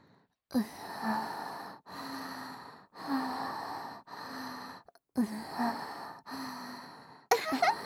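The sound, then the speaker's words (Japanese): A girl breathes audibly in a series of drawn-out, sighing breaths separated by short pauses, with a soft voiced edge on some exhales and a quicker, sharper breath at the very end. “こんな感じでうちの呼吸の音が聞こえてくるの。”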